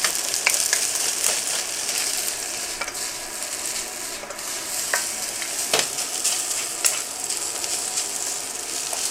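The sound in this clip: Frozen fried rice is stir-fried in a pan with a dense, continuous sizzle. Scattered scraping and clicking from stirring runs throughout, and no one speaks.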